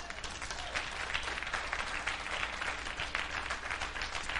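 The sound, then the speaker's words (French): An audience at a church service applauds with dense, continuous clapping that holds at a fairly even, soft level from start to finish. “Quelqu'un ici acclame le Seigneur.”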